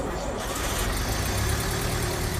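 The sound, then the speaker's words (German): An Adler Standard 8 car engine drives along in a loud, continuous rumbling drone. The dense mechanical noise stays steady throughout, with no clear gear changes or pauses. “Walter Gropius fährt mit seinem von ihm selbst signierten Adler Standard 8 Modell zurück nach Massachusetts”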